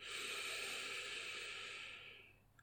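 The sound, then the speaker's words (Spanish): A long breath is released through the mouth after being held during a guided breathing exercise. The soft, airy exhale is steady for about two seconds, then fades away. “Retén el aire en 4, 3, 2, 1 y suelta.”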